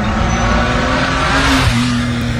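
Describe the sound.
A car driving past, heard as a loud, steady rush of engine and road noise over a low, constant engine hum, with no voices.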